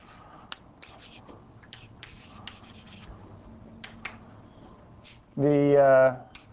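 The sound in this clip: Scratchy strokes of an equation being written on a board during a physics lecture: a series of faint rubbing scrapes, then a short burst of voice near the end.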